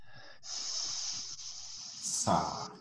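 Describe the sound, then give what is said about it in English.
A voice imitates a long, steady hissing S sound, a bright sustained hiss held for about two seconds, ending with a brief, louder breathy burst. “So when you make an S sound,”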